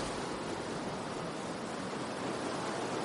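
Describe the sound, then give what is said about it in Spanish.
Waves breaking around a person stranded on rocks beneath sea cliffs make a loud, unbroken roar of surf that stays steady from start to finish without distinct individual crashes. “Las olas rompen a su alrededor.”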